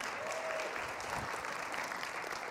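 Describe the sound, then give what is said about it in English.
A church audience applauds as a youth director is brought up: a steady, dense wash of clapping that holds evenly throughout at a fairly low level. “Give Nick a big round of applause.”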